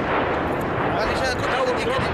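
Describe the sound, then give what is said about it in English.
Artillery shelling by government forces bombarding Misrata produces a dense, continuous rumble of deep booms that holds a steady level throughout. “But the return to normality is hampered by shelling from government forces. Now that Gaddafi's troops have withdrawn from the city, his artillery is free to bombard Misrata from kilometers away.”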